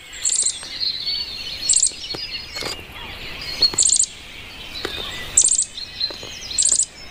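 Young bluebird nestlings chirp outside their tree hole in repeated bursts of high, thin calls about once every second or so, with softer twittering and faint insect-like buzz between them; no voices.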